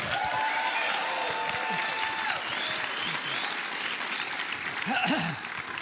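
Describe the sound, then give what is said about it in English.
Loud applause and cheering from a church audience welcoming a pastor at a Sunday morning service: dense, sustained clapping with shouts mixed in, holding steady for about six seconds. “And so would you please welcome with a loud shout and put your hands together, Pastor Frank Damazio.”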